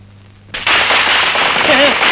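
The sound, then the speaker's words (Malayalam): Firecrackers set off in rows at a festive gathering burst into a loud, sustained crackle after a quiet start with a low hum. The dense noise continues to the end, and a voice is briefly heard over it. “പടക്കത്തിന് തീ കൊടുക്കാൻ പറയും പടക്കം”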